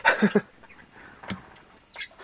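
Pet java sparrows, one male and one female, chirping in a room at home: a short burst of chirps, then a couple of thin, high calls, fairly faint.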